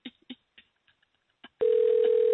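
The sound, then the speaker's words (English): Telephone dialing: a few sharp, irregular clicks with pauses, then a loud, steady, continuous dial-type tone that holds unbroken to the end. “Dialing his number. Dialing. Oh, here we go. We are dialing.”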